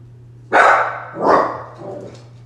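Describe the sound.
A dog barks three times in a row, sharp, mid-pitched barks about half a second apart, the last one softer than the first two, over a faint steady electrical hum.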